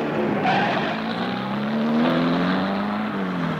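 A car engine pulls away and races in a chase, a sustained droning tone that climbs slightly in pitch, then settles and eases, with no voices.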